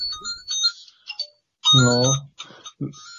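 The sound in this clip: A phone ringtone for an incoming call: a brief, loud, even tone burst sounds between stretches of talk.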